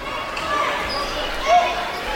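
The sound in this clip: A basketball bounces during a live school game at St. Thomas More, with a hollow thud of the ball on the court standing out from a steady wash of crowd murmur and arena noise.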